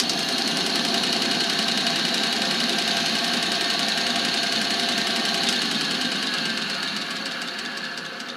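A large engine on a big machine with no starter, cranked by hand, runs steadily with a loud, continuous mechanical drone and a rapid rattling, chugging texture that eases slightly near the end.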